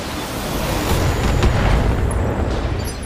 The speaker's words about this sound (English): So we're going to fire everything. I hope we hit with that PPC.